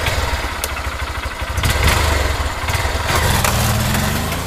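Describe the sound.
A motorbike engine drones as the bike is ridden, a steady buzzing note that surges louder partway through and stays strong to the end.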